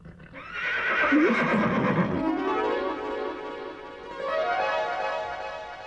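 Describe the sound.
A horse whinnies in an animated series: one loud, drawn-out neigh lasting about two seconds, with sound continuing at a lower level afterward.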